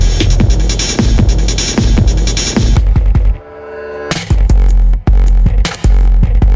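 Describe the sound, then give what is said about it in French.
Loud throbbing, pulsing machine sounds from the so-called grief machine. Rapid pulses drive steadily, drop away to a hum partway through, then resume with abrupt cutoffs. “Vous écoutez maintenant les bruits de la machine de la peine de l'or. Grief machine.”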